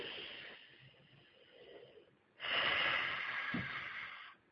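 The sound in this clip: A deep breath: a quieter inhale, then a loud, long, breathy exhale that fades out at the end.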